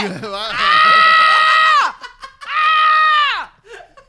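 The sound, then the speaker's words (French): A person screams twice, each a long, loud, high-pitched cry held steadily before its pitch falls away. Short, quieter vocal sounds fill the gap between the two screams. “Je crie dans la forêt.”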